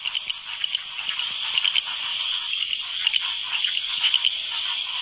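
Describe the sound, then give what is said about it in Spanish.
Frogs giving mating calls, a dense chorus of high, rapid croaks and trills that runs continuously, many voices overlapping with a flickering, pulsing texture. “Los cantos de apareamiento de las ranas les exponen al peligro.”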